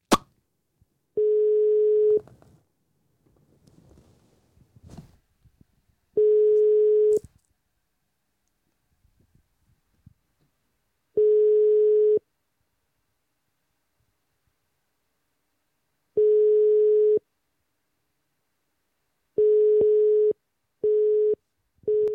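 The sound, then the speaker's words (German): Telephone ringback tone on an outgoing call: four long, steady beeps spaced about five seconds apart, then quicker, shorter busy-signal beeps at the end, with faint clicks between the early tones. “es hat ja normal getutet und erst gegen Ende schon dann besetzt”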